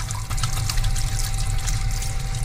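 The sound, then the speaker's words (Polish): Hand-wash liquid runs from a container in a pre-surgery scrub area, a steady, fairly loud trickling flow with a faint constant hum beneath it. “Przed wejściem na salę oczywiście musimy umyć ręce, czyli musi być wszystko sterylne. Z pojemnika płyn na dłonie.”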